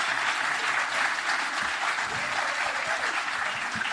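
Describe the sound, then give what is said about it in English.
Audience applause greets a show's producer, thick and sustained clapping from many hands that stays at a constant level throughout. “But please put your hands together again for producer Steve Hankey.”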